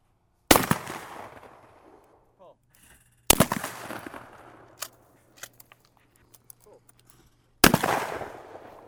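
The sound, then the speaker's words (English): Shotgun fire at a weekend skeet shoot at the Watertown Sportsman's Club: three loud, sharp blasts, spaced a few seconds apart. Each has a long ringing decay, with faint small clicks between them. “I'm out at the Watertown Sportsman's Club's weekend skeet shoot.”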